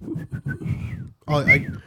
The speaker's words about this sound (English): It's just him whistling.